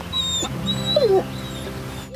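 A dog whimpers: a brief whine that drops in pitch, standing out over a low background hum and a few soft knocks.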